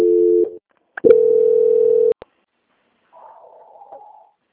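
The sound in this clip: Telephone line tones during a call transfer: a steady tone breaks off and a second steady tone follows, then after a pause a softer warbling tone plays alone.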